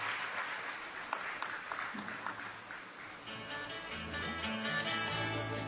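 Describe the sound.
Audience applause welcoming a speaker at a Brahma Kumaris gathering: dense, steady clapping that fills the whole stretch at an even loudness and rises slightly toward the end.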